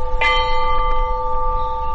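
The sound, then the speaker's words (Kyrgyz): A peace bell is struck once at a memorial ceremony in Osh for those killed in the unrest. Its clear, steady metallic tone rings on and slowly fades over a low background rumble. “Андан кийин ынтымактын символу катары тынчтык коңгуроосу кагылды.”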